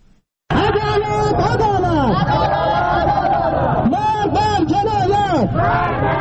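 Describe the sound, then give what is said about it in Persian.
Protesters chant outside the Iranian consulate in Herat, demanding justice over Afghan migrants drowned in the Harirud river. A loud mass of voices bursts in abruptly and keeps up a continuous, overlapping chant and shouting. “صدای این معترضانی که خواستار تامین عدالت در مورد عاملان رویداد غرق کردن کاریجان افغان در هریرود در مرز مشترک ایران و افغانستان شدند.”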